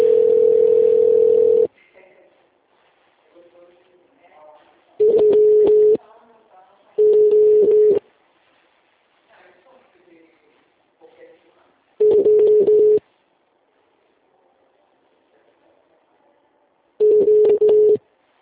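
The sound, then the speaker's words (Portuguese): Ringback tones on a phone line while a call is transferred to an attendant: five steady, mid-pitched buzzing tones of about a second each at irregular gaps, with faint speech in between. “Por favor, aguarde um momento enquanto transfiro sua ligação para um de nossos atendentes.”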